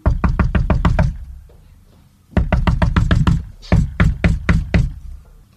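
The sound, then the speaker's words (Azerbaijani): Knocking on a thick wooden plank door, heard as several bursts of rapid, loud, evenly spaced knocks separated by short pauses, with no voices. “Əvvəlcə böyük quzunun evini tapıb, qapını döyür.”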